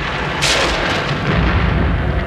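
A thunderclap as a castle splits apart: a heavy, loud rumbling boom with a bright crack early on, then a sustained roar that keeps going to the end.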